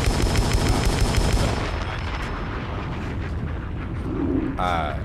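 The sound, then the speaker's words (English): Booming bomb-explosion and gunfire sound effects are layered into a music beat. They form a dense, loud rumble that is heaviest at the start and then thins into a rougher, steadier wash. “the bomb sound dope when you do it during the gunshots”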